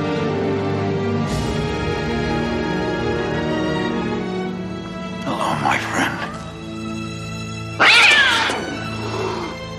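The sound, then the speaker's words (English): An angry cat yowls and caterwauls in harsh, drawn-out bursts over a steady humming background. The two loudest, most strident yowls come in the second half. “that's a mean cat.”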